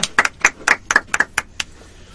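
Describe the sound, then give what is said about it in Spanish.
Clapping for a band from Maipú: a short run of separate, sharp hand claps at a steady, even pace, fading out near the end with no voices. “Un aplauso para todos ustedes.”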